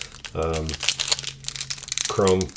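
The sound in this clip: A 2023 Bowman Chrome trading card wax pack wrapper is torn open with crisp crinkling and ripping, and a person talks briefly before and after the tearing.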